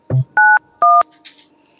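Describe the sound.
Telephone keypad tones dial a conference call number: two clean, loud, evenly spaced beeps, each about a quarter-second long, preceded by a short low thud and followed by a faint hiss.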